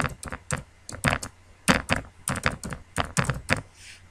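Keystrokes typing an email address into an account sign-up form on a computer keyboard: many sharp, distinct clicks in an uneven rhythm, some clustered in quick runs and others separated by brief gaps, heard alone.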